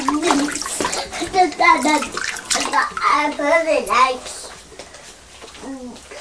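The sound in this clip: Running water rinsing a small beaker, a steady hiss of splashing under a child and an adult talking throughout.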